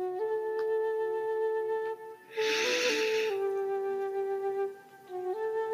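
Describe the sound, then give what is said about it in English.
A single deep inhalation, roughly a second long, comes as a soft breathy hiss over gentle sustained tonal music that plays before and after it. “healthy, deep, loving, luscious breath in, and imagine your entire body being filled with white light.”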